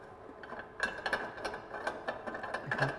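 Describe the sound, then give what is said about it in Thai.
Faint ratcheting clicks as a tube is twisted off a machine so its tank can be removed for washing: many quick, uneven clicks that grow busier after the first second. “เมื่อใช้งานเสร็จแล้วนะครับเราก็จะถอดตัวถังออกเพื่อที่จะเอาไปล้างทำความสะอาดนะครับเราต้องหมุนหลอดออกก่อนนะครับ”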